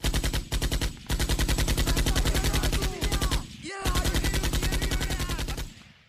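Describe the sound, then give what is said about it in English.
Machine gun fire from high ground on enemy troops rattles in long, rapid, evenly spaced bursts with a few brief pauses, loud and alone throughout. “the Finns would barrage the enemy with machine gun fire from up high.”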